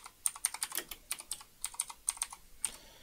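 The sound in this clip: Typing on a computer keyboard: many quick, fairly quiet key clicks in an irregular rhythm, clustered in short runs with brief pauses between.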